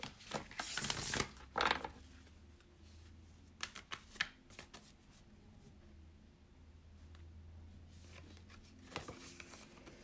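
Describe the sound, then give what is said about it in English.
Oracle cards from the Cannabis Oracle deck being shuffled and handled: papery riffling bursts near the start and again near the end, with softer scattered flicks and rustles between them, all fairly faint. “And one more card from the Cannabis Oracle.”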